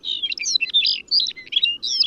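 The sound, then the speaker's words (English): A Lapland longspur sings in flight over Arctic tundra, a continuous run of bright, high twittering and warbled phrases separated by brief gaps, over a faint low background rumble. “The longspur often takes flight to sing, casting its gentle song into the air as it glides above the Arctic tundra.”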